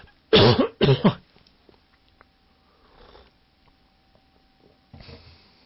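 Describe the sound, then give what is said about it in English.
Two loud, rough throat-clearing bursts in quick succession from a teacher with a cold or hay fever during a lesson, followed by a few faint, quiet noises. “So please excuse me if I have to clear my throat.”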